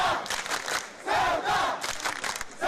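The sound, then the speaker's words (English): Crowd of street protesters cheering and shouting as a politician is escorted out of the city in an armored police vehicle; loud collective yells rise and fall in a few surging waves. “He needs a police escort to get out of here. Eventually, he had to be escorted from the city in an armored police vehicle as protesters cheered.”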